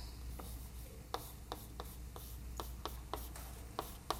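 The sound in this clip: Writing on a board during a mathematics lecture, heard as many faint, sharp taps and short strokes in an uneven rhythm against a quiet background, with no talking.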